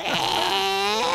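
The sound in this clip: A human voice imitates a Wookiee growl: one continuous, rough, strained vocal howl of about a second, its pitch wavering and lifting slightly near the end.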